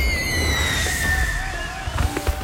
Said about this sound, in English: Enjoy the annual pre-4th of July demo night fireworks show and customer appreciation event at Pyroholics just off the Coleman exit.